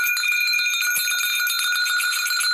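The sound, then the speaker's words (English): Small bells rung to call in spirits, following the Dagara tradition of Burkina Faso, give bright, high metallic tones that ring on steadily, with many quick jingling strikes throughout. “Well, before I go there, I am going to ring the bells”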